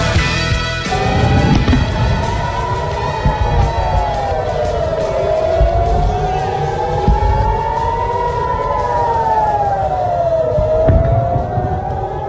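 An air raid siren wails over Israel during missile fire, its loud tone rising and falling in long, slow sweeps throughout.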